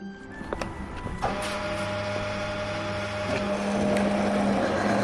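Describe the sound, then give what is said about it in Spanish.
Petrol being pumped into a car at a filling station: a steady mechanical hum with a low tonal drone, a few light clicks early on, and the drone growing slightly louder toward the end. “Seguro que este sonido te resulta familiar, es el de echar gasolina.”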